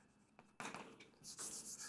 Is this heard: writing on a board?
yes